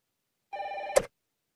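A telephone rings once in a single short burst, a buzzing tone of about half a second that ends in a sharp click, faint and with nothing else around it.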